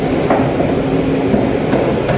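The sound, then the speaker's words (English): Steady rumbling roar of an RER suburban train in Paris, a dense, continuous wash of noise with faint intermittent clicks and rattles riding on top. “His local station is handicap accessible, but catching a suburban train known here as the RER isn't easy. Finally, he's on his way.”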